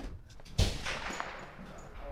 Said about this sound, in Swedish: det pangas på här rejält bredvid oss. Ska vi gå in? Vi går in i ett annat rum här så att vi kommer undan de värsta skotten här just för tillfället i alla fall.